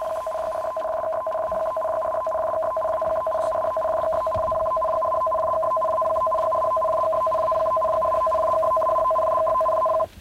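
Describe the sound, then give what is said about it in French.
Tsunami alert tone on a Japanese car radio: a loud, steady electronic tone of two held pitches with a faint rapid pulse, sounding continuously for about ten seconds before cutting off abruptly. “Voilà, ça c'est le bruit de l'alerte au tsunami.”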